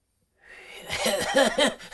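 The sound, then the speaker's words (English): A man's voice imitates a feeble, pathetic cough with a few short, breathy voiced bursts, fairly quiet and brief. “it's like this, like the most pathetic sounding like cough ever.”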